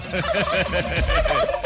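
A turkey gobbles in a loud, rapid run of repeated warbling, rattling calls that carry on throughout, with no voices.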